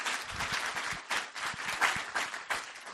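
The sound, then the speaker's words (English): A room of people claps for three guests after their presentations, a sustained round of fairly soft, dense applause with individual hand claps standing out irregularly throughout. “Can we give one more round of applause to our three guests?”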